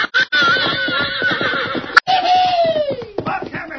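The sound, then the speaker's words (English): A fiery red stallion, newly saddled, neighs loudly as it is turned loose for a bronc ride. Two long, shrill whinnies sound over a noisy background, split by a brief break. The second whinny slides downward in pitch. “two cowhands who had finally put a saddle on a fiery red stallion”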